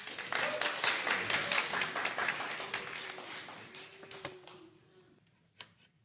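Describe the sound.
Audience applause at a church talk as a speaker is welcomed to the stage: a dense burst of clapping that thins out and fades to near silence, with a lone late clap at the end.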